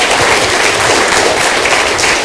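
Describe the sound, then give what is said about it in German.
An audience applauds at a ranking announcement, a dense, loud, unbroken rush of many hands clapping together. “Applaus brauchen wir noch, oder? Ja, Applaus.”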